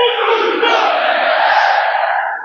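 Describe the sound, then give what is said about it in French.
Football crowd roaring at the Stade d'Ornano in Caen during a Stade Malherbe Caen evening match: a loud, sustained, chant-like wall of voices that holds steady throughout. “Vous entendez le public de Dornano. Le Malherbe Normandie Cup qui pousse le Stade Malherbe de Caen jusqu'au bout ce soir.”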